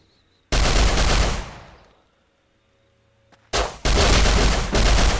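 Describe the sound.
Gunfire from guns in a video game: a loud, harsh burst that trails away over a second or so, a quiet gap, then a short blast followed by another sustained loud burst.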